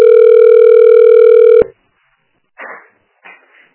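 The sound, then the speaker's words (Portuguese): A telephone ringing tone sounds while a call is placed to a health clinic: one steady, loud buzzing tone lasts about a second and a half and cuts off abruptly, followed by a couple of faint, brief sounds. “Tô ligando lá pra ver.”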